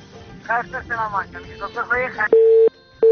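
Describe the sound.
A phone call is cut off: a caller's voice breaks off, then a steady, mid-pitched busy tone sounds in two beeps with a short gap between them.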